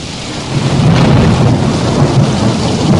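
Rolling thunder over steady, heavy rainfall in a recorded storm, loud and unbroken, swelling just after the start and holding a deep rumble to the end.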